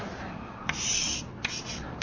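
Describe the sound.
Marker strokes drawing a diagram with a vertical and a horizontal axis on a board: a few squeaky, scratchy strokes of moderate loudness separated by brief pauses.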